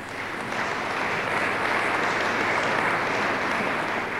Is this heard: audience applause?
yes